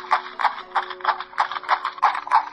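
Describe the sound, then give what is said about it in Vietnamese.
A horse galloping away with many rapid, even hoof clip-clops in a steady driving rhythm, moderately loud with no voices. “bất thình lình xoay người lên ngựa, cưỡi ngựa chạy về phía trước.”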